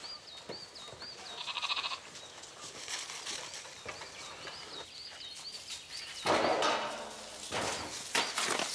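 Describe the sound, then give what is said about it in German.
Sheep bleating in a herd on an island farm, stirred up while a lamb is chased: a few wavering bleats over a busy, noisy background of animal commotion and rustling. “Der Inselbauer und seine störrischen Schafe.”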